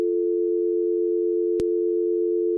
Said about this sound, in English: Now, if we do it together, and that's your dial tone.